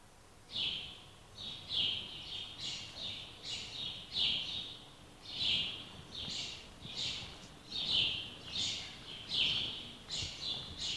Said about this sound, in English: What do you guys think that sound is? It's a bird.